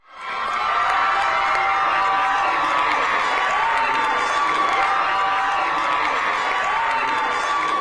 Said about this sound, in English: That was the sound of Kansans celebrating the fact that they roundly rejected a possible amendment to their state constitution that would have enabled an abortion ban to take effect.